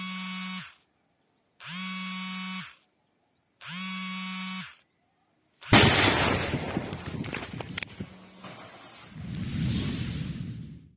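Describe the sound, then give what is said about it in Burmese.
A mine explosion in video recorded by a PDF group: three steady electronic beeps, then a sudden loud blast with crackling debris, and later a second rumbling swell. “မနေ့ကနိုဝင်ဘာလ29ရက်ညနေပိုင်းမှာကော့တော့မြိုင်နဲ့မြိုင် PDF အဖွဲ့ကမိုင်းနှလုံးနဲ့ဖောက်ခွဲဖျက်ဆီးလိုက်တာဖြစ်ပါတယ်အဲ့ဒီဖွဲ့တွေကမှတ်တမ်းတင်ထားတဲ့ရုပ်သံဖိုင်ကိုလည်းကျွန်တော်တို့ကြည့်ရှုကြရအောင်ပါ”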